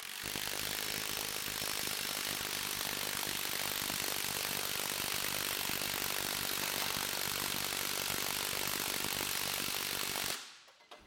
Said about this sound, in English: neither of these bolts really being maxed out in this test, so we can probably skip to the mode 3 on the Milwaukee from now on. Here's that mode 3.